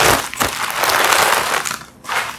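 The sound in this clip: Crackling, crinkling crunches as greens are cut open, a dense run of rough bursts with a brief lull near the end before one more crunch.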